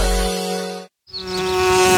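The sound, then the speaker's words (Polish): Bees buzzing in a garden: a dense, steady droning hum that cuts out for a brief moment in the middle, then resumes just as strongly. No voices. “Ale tu ruch. No jak wolu, ale na zawadach większy. Wszystkie pszczoły tam lecą.”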